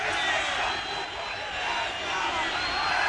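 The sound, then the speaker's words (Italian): Tuscan football fans in Florence after a defeat, a faint, steady wash of crowd noise and chanting that swells and dips slightly without letting up. “Tifosi toscani che stanno prendendo bene la sconfitta.”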